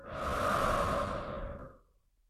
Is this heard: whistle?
no